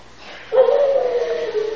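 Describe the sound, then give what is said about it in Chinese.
A voice imitates a dog howling at night: one drawn-out, mid-pitched howl that starts abruptly and is held steadily for over a second. “他晚上听到狗在叫，我告诉你，狗不是会叫，”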